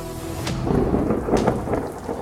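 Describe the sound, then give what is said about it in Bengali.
Thunder rumbles through heavy monsoon rain at a cremation ground, a loud, continuous downpour roar with a couple of sharper cracks breaking through. “সেটা ছিল শ্রাবণ মাস। বজ্রপাতের সঙ্গে সঙ্গে তুমুল বৃষ্টি আরম্ভ হলো শ্মশানে।”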